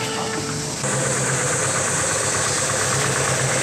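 A car engine idling, producing a steady, continuous rumble and hum that holds level throughout after a slight step up early on.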